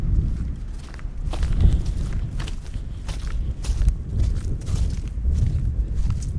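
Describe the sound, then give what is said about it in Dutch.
Footsteps walking on sand in a riverside nature area along the Maas, where the ground is turning wetter: many soft, steady crunching steps in an even walking rhythm, with no voices. “waar wij nu nog over het zand lopen”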